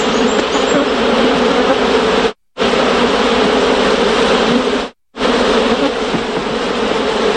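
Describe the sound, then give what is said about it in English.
Foraging bees hum in a dense, steady, loud buzz. It plays in three stretches separated by two brief silent gaps. “Some, such as the hum of foraging bees, are incidental to other activity.”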